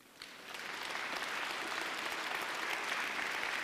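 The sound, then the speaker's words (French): A church audience bursts into applause in acclamation. The clapping starts abruptly and quickly swells into a steady, dense wash of many hands, fairly soft overall. “Et parce qu'il est vivant, au milieu de nous, acclamez-le.”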